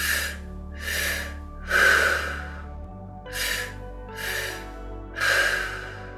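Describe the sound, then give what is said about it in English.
Slow, deliberate breathing in and out, with six soft, airy breath sounds in a steady unhurried rhythm over a low, faint hum and no talking. “Continue to breathe.”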